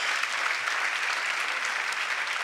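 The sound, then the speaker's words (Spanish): Dense, steady applause from an audience at a church service, given to the Lord; the clapping stays full and even throughout without a break, with no voices standing out above it. “Y a los que aman a Dios, eso es, dale el aplauso al Señor.”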